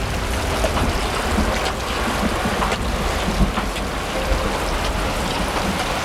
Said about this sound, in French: Il y a l'eau qui coule, ça va faire tomber la bâche.